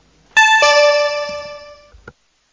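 An electronic voting signal sounds in a council chamber: a bright, bell-like tone with two struck onsets close together, ringing on and fading steadily over about a second and a half, then a short faint click.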